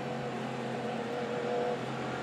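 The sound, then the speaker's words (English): Race car engines drone steadily as two Cadillac prototypes lead the field behind a hybrid V8 safety car under caution at the 2023 Petit Le Mans sports car race. The hum is low, continuous and fairly faint, with no voices. “safety car, which uses its hybrid and V8 power to the best effect to pull away from the field. Bit of braking and accelerating going on from Sebastian Bourdais and from Jack Aiken at the head of the field.”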